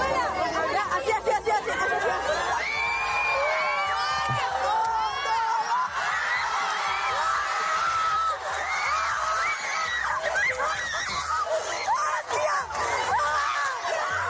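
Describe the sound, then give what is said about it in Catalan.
Excited audience chatter and cheering as a crowd reacts to an older woman doing six push-ups. Many voices overlap in a loud, continuous hubbub, with bursts of shrill shrieks and whoops rising above the babble throughout. “Atenció, perquè aquesta que escoltareu és la reacció del públic.”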